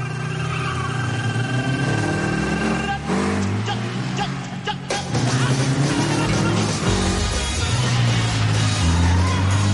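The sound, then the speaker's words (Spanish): A car skids around curves through a residential estate in the 2019 film Once Upon a Time in Hollywood, its engine roaring and revving loudly with shifting pitch, a brief dip partway through, then a renewed surge. “Circula por la urbanización derrapando en las curvas.”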